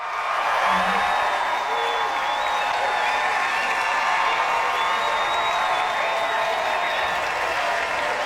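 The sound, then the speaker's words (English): A standing ovation for Rosie O'Donnell on opening night of the Rocky Horror Show: loud, sustained applause and cheering from the audience, with a high whistle threading through, unbroken for the whole stretch. “And they're bowing down to Rosie O'Donnell because she crushed it. She got a standing O.”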